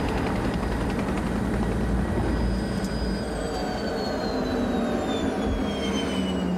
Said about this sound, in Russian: Вертолет садится на площадку, рядом с привязанным конем.